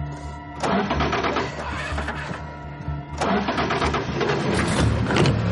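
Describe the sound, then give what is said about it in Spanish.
A car engine being started in a horror film scene cranks and surges into a rough running roar twice, over a steady humming drone. “Corre despavorida hacia el coche. Abre la puerta y se mete dentro. Intenta arrancarlo.”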